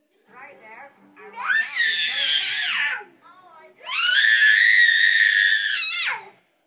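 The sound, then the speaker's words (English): A two-year-old boy screams in a tantrum, letting out two long, high-pitched shrieks, the second louder and more sustained, with a short whimpering break between them. “And this particular tantrum, which started but very quickly escalated into no reason at all.”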